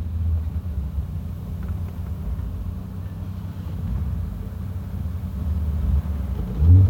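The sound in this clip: A rental car drives along with a steady, low engine rumble that holds fairly even throughout, with a slight bump in level near the end and no voices.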